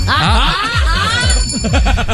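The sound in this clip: A small bell hung at a studio entrance jingles rapidly, its bright tinkling rings repeating many times in quick succession and staying fairly loud throughout.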